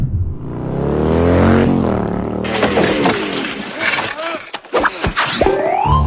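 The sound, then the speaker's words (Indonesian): A motorcycle speeding through a red light roars past in the opening seconds, its engine tone climbing and then falling away, followed by a mix of sharper scattered noises. “Buset, tuh orang ngebut bener bawa motor. Gak mikir nyawa apa ya? Pakai ngelanggar lampu merah lagi.”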